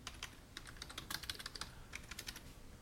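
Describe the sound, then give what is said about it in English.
Rapid typing on a computer keyboard: many quick, irregular clicks and taps in an uneven rhythm, steady at moderate loudness, with no talking. “Actually, let me type that shit out right now.”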